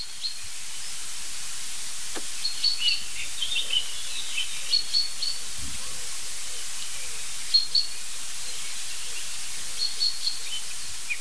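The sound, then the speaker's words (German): Agitated chaffinches call in short, high chirps scattered at irregular intervals over a steady hiss. The calls are faint, and no one speaks. “Ja, irgendwas regt jetzt die Buchfinken hier auf.”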